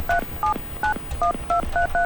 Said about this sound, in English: I got it in a speed dial, so I can call it up real quick.